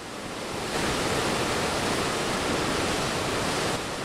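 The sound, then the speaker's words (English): Water rushes through the large arch-shaped openings of a river dam beside a power plant near Keokuk's riverfront, on the river between Illinois and Iowa. It makes a loud, continuous, even roar, alone and unbroken throughout. “That's the sound of water rushing through the large arch-shaped openings in the dam.”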